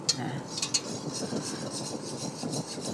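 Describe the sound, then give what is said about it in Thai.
Stirring of a herbal balm mixture with camphor, menthol and borneol as it melts to a clear liquid: soft, continuous scraping and rubbing of a utensil in a pot, with a few brighter clinks, fairly faint. “ตอนนี้เราคนจนละลายกลายเป็นของเหลวทั้งหมดแล้วนะคะ”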